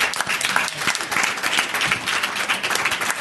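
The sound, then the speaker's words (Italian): Audience applause for a simultaneous interpreter at a talk, made up of steady, dense clapping from many hands that holds an even loudness from start to finish. “ma poi anche più piccolo al nostro straordinario interprete in simultanea di oggi, a cui vi pregherei di fare un applauso.”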